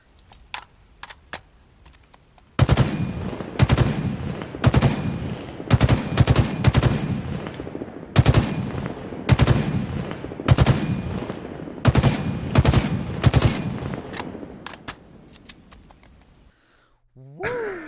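Rapid burst fire from the Battle Rifle 75 in a video game: many sharp, loud clusters of shots with short pauses between them. No voices are heard.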